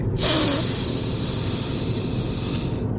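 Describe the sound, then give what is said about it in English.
A single long, deep breath drawn as a steady, airy hiss that lasts about two and a half seconds at an even loudness, then cuts off. “Really deep breath. It's going to make you feel better. One last breath.”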